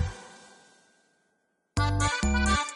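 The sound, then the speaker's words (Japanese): Tambourine jingles: a fading metallic ring trails away into quiet, then two loud, bright shaking bursts follow in quick succession. “俺のタンバリンの腕前はどうだ。”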